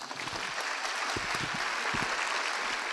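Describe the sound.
Audience applause welcoming a guest speaker at Louisiana Tech University: dense, continuous clapping from many hands that holds at a steady, fairly strong level throughout.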